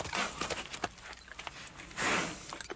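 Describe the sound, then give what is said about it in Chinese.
Hoofbeats of a horse galloping as its rider hurries back to a royal palace: a quick, irregular run of fairly faint clopping strikes, with a brief noisier rushing surge late on. “因而吓得他立刻骑马回去王宫”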